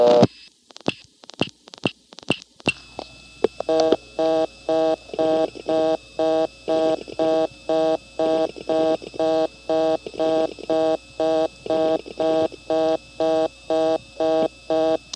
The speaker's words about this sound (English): You could hear some dialing over the reorder tone there, and yes, that is what it ought to do.